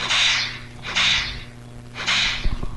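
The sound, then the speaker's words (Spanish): A whip is swung and cracked three times. Each stroke is a loud, hissing swish lasting about half a second, evenly spaced, followed by a few faint clicks at the end. “Pude, pero fue más divertido agitar el látigo. Mira, ahí va otra vez.”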